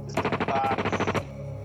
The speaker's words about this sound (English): I think there's too many bullets going off too close together to be a Tommy gun. Yeah. I don't have a clue. It's an Uzi.